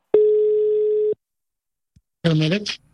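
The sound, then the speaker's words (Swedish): A telephone ringing tone sounds while a nightclub is being called: one steady, mid-pitched buzz lasting about a second. A pause follows, then a brief voice is heard. “Så att jag har faktiskt ringt till ytterligare en nattklubb.”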